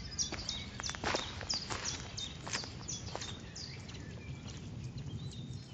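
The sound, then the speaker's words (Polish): A blackbird sings faint fluting trills in riverside countryside during early breeding season in light rainy weather, its short high phrases coming and going over soft intermittent clicks and thuds and low background noise. “Odzywa się mnóstwo ptaków, to jest początek sezonu lęgowego. Słychać kosa, te trele takie fletowe”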